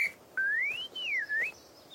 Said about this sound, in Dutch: Wie fluit daar?